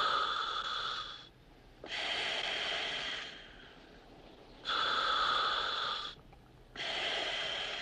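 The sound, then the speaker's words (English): Scuba regulator breathing from a diver in a mask, in water over six feet deep: four loud, hissing breath bursts in a slow, even rhythm, with quieter airy stretches between them. “Looking through the diving mask, breathing through a regulator”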